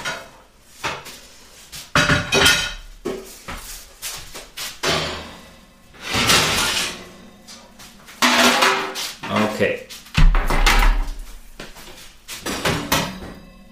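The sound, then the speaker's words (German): Pans and clutter being pulled out of a kitchen oven: many irregular metallic clanks, bangs and rattles of pots, trays and utensils knocking together, loud and uneven throughout. “muss ich erstmal ein bisschen Müll aus dem Ofen rausholen”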